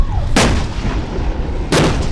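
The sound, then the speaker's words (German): M60 tanks firing their cannons at dawn during a military exercise on Penghu: two loud, sharp blasts about a second and a half apart, with a continuous low rumble between them. “Im Morgengrauen feuern M60-Panzer auf Pengshu.”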